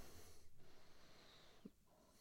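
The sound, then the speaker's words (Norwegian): A single brief nasal snort from a person, faint and abrupt, rises out of a low breathy hiss and stands alone with no talk. “Oi, det var et snork som ikke skulle være der, jeg beklager det”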